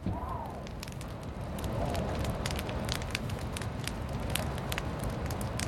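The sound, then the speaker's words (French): A log burns in a fireplace, its flames crackling with many sharp pops and snaps scattered over a steady rushing hiss. “Je suis assis près du feu, l'ordi est allumé, comme si je savais mais je sais pas. Je regarde la bûche se faire ronger petit à petit par les flammes.”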